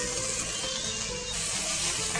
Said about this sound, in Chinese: 好，我们把这个肉呢炒熟来哈，炒熟。